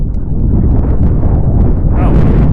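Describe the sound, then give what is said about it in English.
Outdoor wind blows straight into a microphone, making a loud, steady, low rumbling roar that buffets continuously for the whole stretch. “Jesus Christ, it's windy. I'm trying to record a podcast, The Wind. No, wind! Stop getting angry at wind.”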